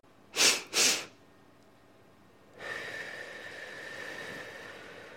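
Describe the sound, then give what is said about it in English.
Breathing exercise: two sharp, loud inhales in quick succession, then a short pause and a long, steady, softer exhale that lasts to the end. “So you do two inhales and a long exhale. So it's like this.”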